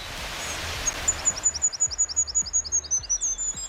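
A small songbird sings a rapid run of many high, thin chirps that form a steady, slightly descending trill over a soft background hiss.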